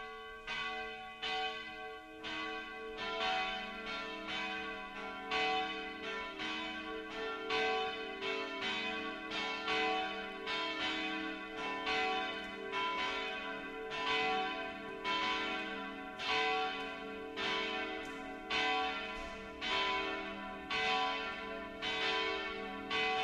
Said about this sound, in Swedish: Men nu låter vi kyrkans klockor ringa oss samman till bön och gudstjänst denna.